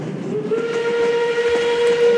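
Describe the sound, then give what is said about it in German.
A train's steam whistle holds one steady, clear tone for about two seconds over a soft rumble, with no voices. “Der Explain Train fährt ein. Nächster Halt.”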